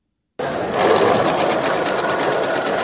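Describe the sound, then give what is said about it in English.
A sewing machine stitches headscarves at a community center, its needle driving a continuous, fast, even whir that stays loud and steady from start to finish. “Volunteers come together Sunday, sewing headscarves at a community center in Christchurch, New Zealand.”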